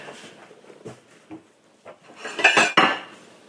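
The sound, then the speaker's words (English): Clatter of a big plate being taken out and handled in a kitchen while a roast is prepared for stew. A few light knocks come first, then louder ceramic clinks and rattling bunch together toward the end. “I'm gonna get uh, like a big plate to put it on. Let me get a plate.”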